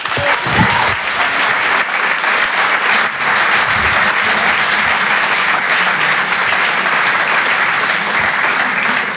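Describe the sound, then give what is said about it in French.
Dense, loud applause from a comedy show audience welcoming a stand-up comedian to the stage, continuous and steady from start to finish without a break. “Faites du bruit s'il vous plaît pour Jérémy Lorca.”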